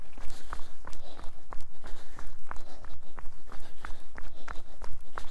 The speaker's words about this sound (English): We'll actually start running pretty soon. And right about now.